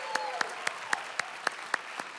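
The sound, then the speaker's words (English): A church audience at First Church applauds with sharp, evenly spaced claps in a steady rhythm, moderately loud and sustained over a diffuse crowd wash. “So if you are here on site, would you put your hands together? Get loud.”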